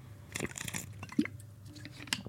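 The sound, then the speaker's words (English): Small sips from a wellness shot drink: a few quiet, wet slurps and swallows scattered across the moment, with brief liquid squelches between them. “as I get a little sip of the old wellness shot here”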